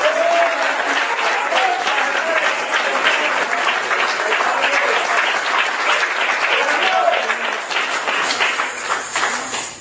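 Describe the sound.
Congregation applauding during a church sermon, a loud, sustained wash of many hands clapping at a steady level, with voices mixed in and a slight easing near the end.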